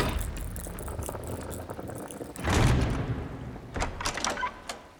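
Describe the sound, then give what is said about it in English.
A gate opening onto a jetty is shut and bolted from inside a tower, giving a rumbling scrape and dull thud, then a few sharp rattling metallic clicks over a steady background hiss. “Then the gate opening out onto the jetty is shut and bolted from inside the tower.”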